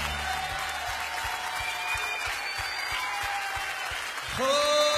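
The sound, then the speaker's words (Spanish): Applause at a worship gathering: dense, steady clapping from a crowd, with a sustained musical or sung tone coming in near the end. “Aplaudale a él.”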